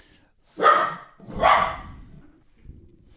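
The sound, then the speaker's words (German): A dog barks at tangled cables: two loud, sharp barks in quick succession, then a fainter, softer sound, with no talking. “Chili verbellt gerade Kabelsalat.”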